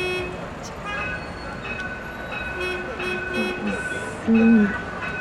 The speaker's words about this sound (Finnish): Siellä bussi tööttäilee.